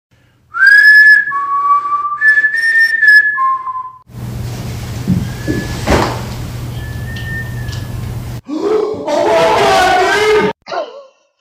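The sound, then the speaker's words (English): A person whistles a short melodic tune of several clear, high notes, then a fainter whistle answers with the same tune. A burst of voiced sound follows near the end. “It only liked this one tune that I whistle, and it responds back with the same exact whistle.”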